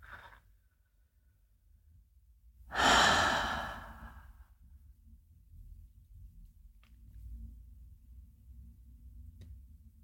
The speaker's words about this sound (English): Let's take a couple nice slow breaths.